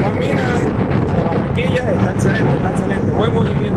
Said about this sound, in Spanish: Tengo una duda, o es la brisa o es el abanico, el ventilador sí, viejo que tiene la casa.